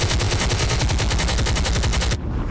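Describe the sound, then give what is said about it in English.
Bombs and bangers explode in a loud, rapid string of cracks that runs continuously like firecrackers, then cuts off abruptly just before the end. “Bombs again.”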